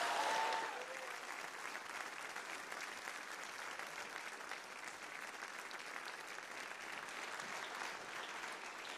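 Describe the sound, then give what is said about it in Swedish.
Congregation applause during a Livets Ord church service: a steady, even patter of many hands that starts slightly louder and then holds for about nine seconds. “Ska vi bara ge en stor, stor applåd när du kommer upp och betjänar det här.”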